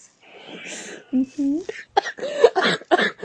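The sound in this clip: A person clears their throat and coughs in a few short, rasping bursts in quick succession. Brief voiced grunts are mixed in, at moderate loudness.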